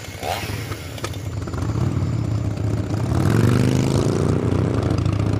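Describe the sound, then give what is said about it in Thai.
A motorcycle is ridden out on patrol at night, its engine a continuous rough drone with rattly clatter that grows steadily louder and fuller partway through. “ผู้ใหญ่ขับมอเตอร์ไซค์คู่ใจออกลาดตระเวน”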